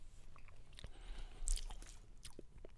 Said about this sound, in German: Mit vollem Mund. Gebt uns eine Sekunde. Mit vollem Mund isst man nicht.